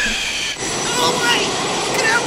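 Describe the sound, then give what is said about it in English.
Steady, roaring rumble of a train in a Sydney train station, loud and continuous with slight swells, and voices faintly present. “What this is you know where I am now? I'm in a Sydney train station.”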